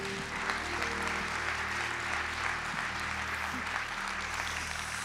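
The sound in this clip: A church audience applauds as a pastor is welcomed onto the stage. Dense, steady clapping continues for the full five seconds.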